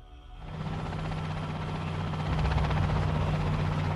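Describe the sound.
An armoured, hermetically sealed helicopter flies over the nuclear reactor at Chernobyl, its loud, continuous rotor and engine drone building slightly louder over a few seconds, with no voices.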